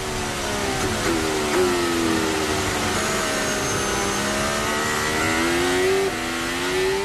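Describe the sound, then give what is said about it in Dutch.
Formula 1 car engine roaring in an onboard recording as the car accelerates and brakes to charge its battery. The loud, continuous engine note climbs in pitch and falls back several times throughout. “Het onboardgeluid komt bij Lewis Hamilton vandaan. Die hier dus accelereert en remt om de batterij op te laden.”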